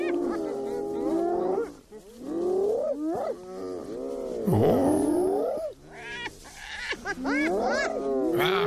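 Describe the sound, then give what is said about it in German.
A spotted hyena calls loudly and almost without pause in a run of many wavering, harmonic whoops and cackling yelps. Their pitch sweeps up and down through a continuous burst of about nine seconds. “Ja, wenn Sie mich fragen, klingt fast so ein bisschen wie ein Lachsack oder sowas, aber ist tatsächlich die Originalaufnahme einer Tüpfelhyäne.”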